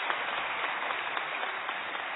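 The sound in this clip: An audience applauds as two guests are welcomed onto the stage at a discussion event, with continuous, even clapping at a moderate level.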